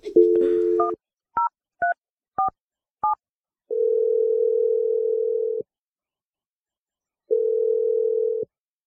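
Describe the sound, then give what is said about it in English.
A phone number is dialed on a touch-tone telephone: a brief dial tone, then a few quick, high two-tone beeps. Two long, steady ringing tones follow, separated by a gap of silence. “Let's just dial the number.”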